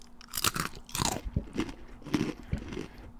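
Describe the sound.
Crisp crunching and chewing as pretzels are eaten alongside string cheese gobbled quickly, with many sharp bite crunches in a fast, irregular rhythm and moist chewing between them, fairly loud, no talk.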